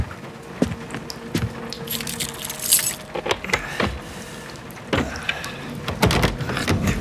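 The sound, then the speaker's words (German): Keys jangle and a lock is worked as a sticking front door is unlocked, with rattling metal and several sharp knocks and clunks from the jammed door, all fairly loud. “Verdammte Tür klemmt schon wieder.”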